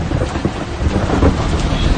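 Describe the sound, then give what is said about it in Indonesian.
Thunder rumbles at night through light drizzle as a rainstorm eases, a loud, continuous low roar mixed with a steady hiss of rain, with no separate claps standing out. “hujan pun mulai mereda, tapi masih tetap gerimis. Dan suara petir beberapa kali masih menggelegar,”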